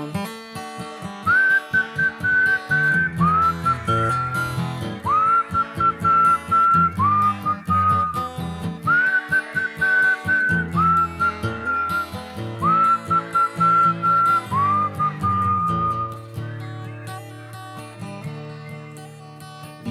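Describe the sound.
A person whistles a bright, high-pitched melody in a children's song, phrasing it in short repeated bursts over steady, rhythmic backing music.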